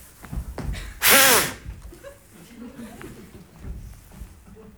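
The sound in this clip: A short, forceful blow of breath into a breathalyzer during a comedy sketch, one loud, rushing gust lasting under half a second between quieter sounds.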